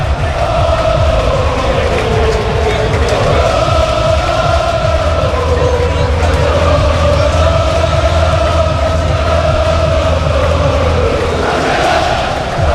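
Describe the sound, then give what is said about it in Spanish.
A sold-out crowd of 15,000 football fans roars at the Castalia stadium minutes before kickoff. The loud, steady din carries sustained chanting that rises and falls throughout. “15.000 espectadores en el Skyfy Castalia, que vamos a escucharlo porque suena así a pocos minutos de que empiece el partido.”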